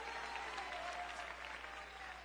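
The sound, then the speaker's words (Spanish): An audience applauds for the Lord during a Spanish-language religious sermon: dense, steady clapping that holds at an even level throughout. “Ese aplauso al Señor.”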